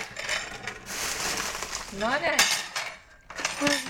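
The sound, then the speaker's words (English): A plate and small knife and spoon clinking and scraping as they are set down, with a few sharp metallic chinks and brief voices. “Put that plate there. Oh yuck, yuck. Oh, look, you've got your chocolate knife and chocolate spoon as well.”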